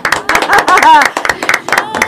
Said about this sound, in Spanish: Como corresponde, el cálido aplauso para Gabriela Guamán.